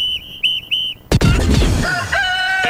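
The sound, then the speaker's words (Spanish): Rooster crowing, loud and harmonic-rich, after three short, high, whistle-like tones, then trailing off into a drawn-out call toward the end. “El gallo ya está de regreso.”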